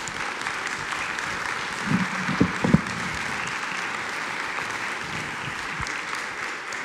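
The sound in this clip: An audience applauds to welcome a speaker, with steady, fairly soft clapping and a few sharper claps standing out near the middle.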